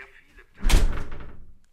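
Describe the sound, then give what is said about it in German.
A door is shut with a single solid thump that lands sharply and then dies away over about a second, with quiet surroundings before and after. “Kannst du die Tür bitte zumachen?”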